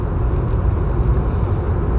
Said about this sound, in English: Don't usually podcast from the car. Sorry about the noise.